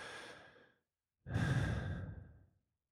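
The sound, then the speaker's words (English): A deep breath is drawn in, followed by a brief silence and then a long, louder, breathy exhale, heard alone with no talk. “On three, take a deep breath and listen to your breath, or listen to my breath.”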